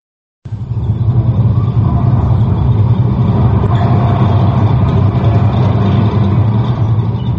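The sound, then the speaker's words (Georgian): A tank with its gun barrel raised rumbles forward at the opening of a film, a steady, heavy, low engine drone that starts abruptly after a brief silence and holds loud and unbroken throughout. “ფილმი იწყება მოძრავი, ლულა შემართული ტანკის ახლო ხედით. კადრში ჩანს საბრძოლო მანქანა, რომელიც ბრუხუნით მიიწევს წინ.”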